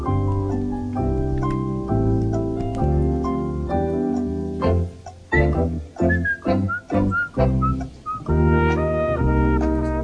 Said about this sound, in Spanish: Está silbando, cuidado conmigo, cuidado conmigo.